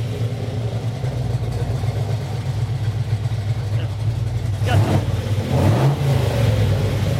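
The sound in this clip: A 1974 Pantera GTS engine with factory headers idles as a steady, low, throbbing rumble, which swells briefly louder near the end.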